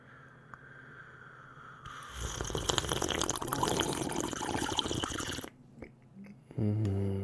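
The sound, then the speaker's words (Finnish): A noisy slurping sip of coffee lasts a few seconds, and a brief voiced sound follows shortly after it. “Kahvi. Otetaan vielä toinen hömpsy.”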